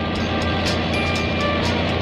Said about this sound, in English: this bionic man who drives his car now in the direction of his home